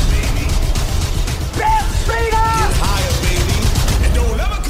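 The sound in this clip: Gunfire at a bear in a film scene: many rapid shots crackle sharply in quick bursts, mixed with loud shouting voices throughout.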